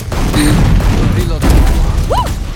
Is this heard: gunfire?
yes